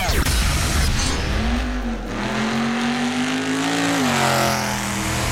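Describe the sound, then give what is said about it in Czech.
Formula 1 cars racing at the Portuguese Grand Prix: a loud, continuous engine roar with a whining tone that climbs gradually, holds, then dips near the end, over broad rushing noise. “Zastavili jsme se podívat také na závod Formule 1 v Portugalsku.”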